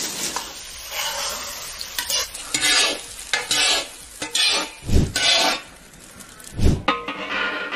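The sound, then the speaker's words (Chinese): Food sizzles in a hot wok as it is stirred and lifted out: steady frying hiss with repeated scraping strokes of a utensil and a few dull metallic thuds against the pan. “三二一，起锅。”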